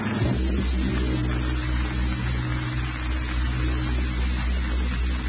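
Airplane engines drone in flight on a passenger trip bound for Honolulu, giving a steady, low, continuous hum with no breaks and no voices.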